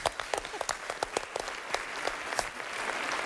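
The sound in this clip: Applause from a group during a quiz-style learning session: quiet, separate claps in an irregular patter that thins out and settles into a softer wash toward the end.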